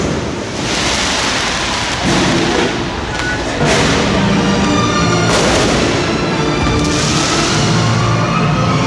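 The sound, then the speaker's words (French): Fireworks at the Christmas lights opening in a shopping mall: a loud, continuous mix of booming bursts and crackle, with several sharper blasts standing out over a dense rumble. “C'est extraordinaire ce qu'on voit là. Il y a un feu d'artifice, du feu de Dieu, sono infernal.”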